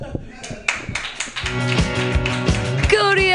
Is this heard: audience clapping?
yes